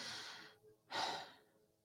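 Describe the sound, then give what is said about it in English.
Human breathing, slow and unvoiced: a long airy breath, a short pause, then a second fuller breath that fades out, soft and breathy with no talk. “Every breath you take, you are speaking God's name. No vowels, no consonants.”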